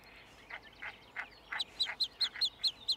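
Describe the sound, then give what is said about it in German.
Newly hatched chicks in dry down call in a rapid series of short, high-pitched peeps that become louder and more regular toward the end, with no talk. “Die Mutter ist in der Nähe geblieben. Sie kann die Rufe ihrer Jungen deutlich hören.”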